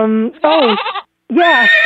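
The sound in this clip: A whinny likened to the talking horse Mr. Ed from the TV show comes as two loud, wavering, nasal calls with strong harmonics and a bleating quiver, separated by a short pause.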